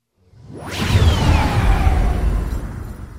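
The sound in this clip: A starship jumps into hyperspace in a Star Wars scene. A loud whoosh swells up out of silence into a sustained roar, with whistling tones that slide downward, lasting about three seconds.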